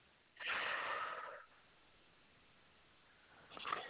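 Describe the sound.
A deep breath drawn in during a slow spoken prayer: a long, breathy rush of air that holds steady for about a second, then quiet, with another breath starting near the end.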